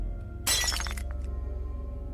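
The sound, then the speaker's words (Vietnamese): An oil lamp falls to the floor and shatters: one sudden, bright crash of breaking glass, followed by a few small tinkling fragments that quickly fade. “Ngọn đèn dầu rơi xuống đất vỡ tan tành,”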